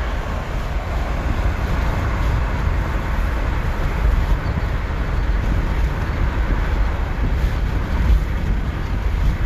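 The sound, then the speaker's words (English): Road traffic noise from inside a car stuck in traffic. A constant low rumble with a wind-like hiss holds steady throughout, with no talking. “I'm sorry. In traffic, y'all. In traffic, trying to. People's crazy out here.”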